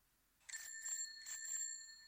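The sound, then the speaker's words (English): A small bicycle bell rings in two quick double strikes, each giving off bright, high metallic chimes that linger and ring on. The tone is fairly quiet against near silence. “Bicycle. Little bicycle bell.”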